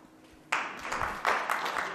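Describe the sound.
Audience applause given as a vote on a question about China's economy, bursting in abruptly after a brief quiet moment and continuing as a moderate, scattered patter that swells again partway through.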